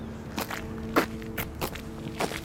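Footsteps walking up a street on a windy, drizzly morning, a handful of soft, fairly evenly spaced steps over a low, steady background hum.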